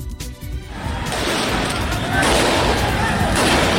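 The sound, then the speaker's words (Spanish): Gunfire as Taliban fighters shoot at a group of protesters in Jalalabad, Afghanistan, a dense, rough crackle of shots that builds and stays loud throughout. “lo que escucha son los disparos de los talibanes en Jalalabad contra un grupo de manifestantes.”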